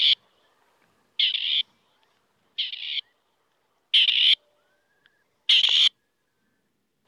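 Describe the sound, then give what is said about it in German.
A male grey partridge calling: harsh, grating, high-pitched calls, each under half a second, repeated at regular intervals with quiet gaps between them. The call sounds the same each time and carries clearly against a silent background. “Die Rufe des Rebhuhns”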